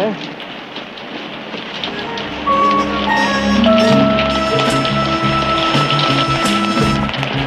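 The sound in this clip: Rain falls on a deserted, rain-drenched city street at night. Dense, even hiss runs steadily throughout, with faint tonal sounds layered underneath.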